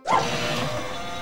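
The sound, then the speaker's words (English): An uncooperative office printer in a film: a short tone at the start, then a steady mechanical hum and whir that holds at an even level and slowly fades slightly. “Even its villain is incredibly familiar, a beeping, uncooperative printer.”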